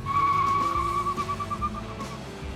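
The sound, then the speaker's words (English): Tires squeal during a high-speed car chase as a smugglers' vehicle flees police. A sustained, high, steady screech holds over a rumbling engine roar and thins out toward the end. “the pair fired at the officers and took off in a high speed vehicle, and the chase was on.”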